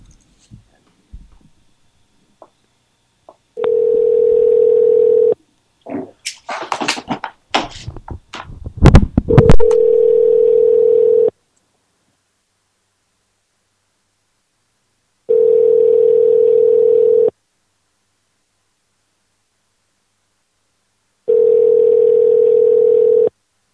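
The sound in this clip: Telephone ringback while calling someone back: long, steady buzzing tones repeat at regular intervals over a silent line. Early on, a burst of crackly, clattering noise cuts across one of the tones.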